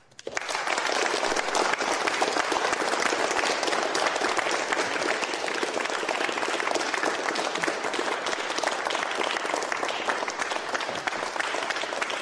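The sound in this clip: An audience at a talk event applauds to welcome a guest speaker: dense, even clapping that starts at once and holds steady and full throughout.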